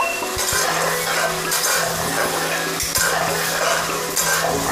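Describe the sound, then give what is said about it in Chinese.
Sizzling and stirring as broad bean paste is stir-fried in low-temperature oil, around 90 to 120 degrees. A steady, crackling fry runs throughout, with the light scrape and tap of a utensil moving through the wok a few times. “我们这个时候温油低油温炒豆瓣”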